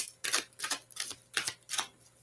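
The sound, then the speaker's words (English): A deck of cards being handled and shuffled, with cards falling out: several crisp, papery snapping bursts in a loose, fairly even rhythm, fairly faint, with quiet gaps between them. “Everything's falling out of the deck here. Can't have 10 cards going on here.”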